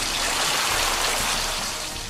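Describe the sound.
A water-soaking attack sound effect from a video game: a dense, continuous rushing splash like heavy rain or a gushing stream. It stays loud and even throughout, with no voices.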